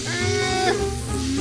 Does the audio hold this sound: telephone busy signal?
no